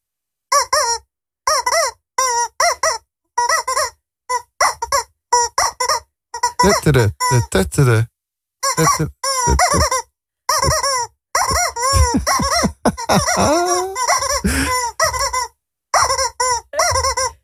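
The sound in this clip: A rubber toy chicken is squeezed and released over and over, giving many short, nasal, squeaky honks that come in quick bursts with brief pauses between them.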